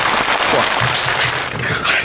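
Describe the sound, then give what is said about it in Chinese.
Audience applause at a stage comedy performance as an act is welcomed on: dense, steady clapping that fills the whole stretch at a fairly loud, even level. “咱们掌声有请元气少女，有请。”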